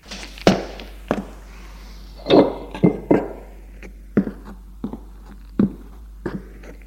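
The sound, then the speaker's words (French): A glass bottle and two glasses clink and knock as they are handled at a bar counter. Many sharp, irregular taps and knocks, some louder than others, sit over a low, steady background hum. “Et va au comptoir prendre une bouteille et deux verres.”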